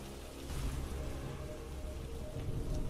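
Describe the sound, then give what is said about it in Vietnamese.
Heavy rain pouring at night with thunder, a dense, steady hiss over a deep low rumble that swells slightly toward the end. “Ngoài trời bắt đầu đổ mưa, sấm sét đùng đùng vang dội”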